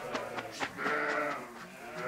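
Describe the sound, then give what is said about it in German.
Pregnant East Frisian milk sheep bleating while being moved in a trailer: several short, wavering bleats overlap at moderate loudness, with a longer bleat in the middle, over a low rumbling background. “Mit so einem Anhänger sind ihre Schafe noch nie gefahren. Hinzu kommt, die Damen sind guter Hoffnung.”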